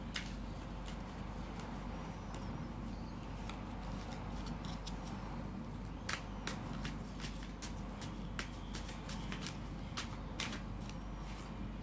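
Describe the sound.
Playing cards are shuffled with a steady, quiet papery riffle and many crisp flicks and snaps scattered throughout.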